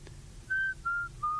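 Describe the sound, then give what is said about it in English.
A person whistles three sustained, clear notes, each held for a fraction of a second with short gaps between, the pitch stepping slightly lower each time. The whistling is fairly soft and no one speaks. “I like to whistle. Do it all the time.”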